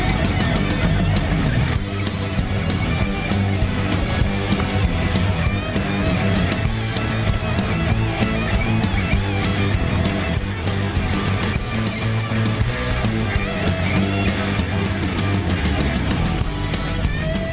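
A live rock jam session closes a Rock and Roll Hall of Fame induction ceremony in Cleveland, with a whole band playing loud, dense and steady throughout, drums and amplified instruments filling every moment without a break.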